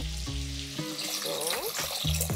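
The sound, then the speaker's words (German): Broth poured into a single pot holding capers, olives and chili: a steady, full rushing splash of liquid that lasts throughout, with a voice briefly over it at the start and end. “Da kommt jetzt einfach nur Brühe drauf.”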